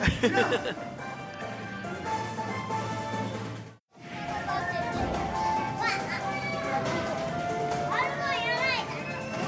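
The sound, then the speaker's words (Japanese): Children shout excitedly, many high voices overlapping in a loud, continuous din that drops out briefly midway, then resumes with a few shrill rising cries near the end. “すごいね。叫んでますね。 すごいでしょ、盛り上がってるでしょ。”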